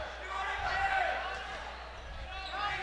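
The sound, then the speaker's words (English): A basketball dribbled on a court during a game gives a few hollow, low thumps under a commentator's steady play-by-play voice. “Hartwick, left wing, dribbling against the Simpler, now back into Cuthrell.”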